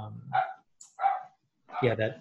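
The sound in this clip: A dog barks three times in short, loud bursts separated by brief pauses, the last bark deeper and fuller than the first two.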